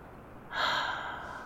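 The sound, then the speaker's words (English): Gentle breathing close against skin: one soft, airy, hissing breath swells up partway through and slowly tapers off, heard on its own without any talk. “Your gentle breath in and out against my skin.”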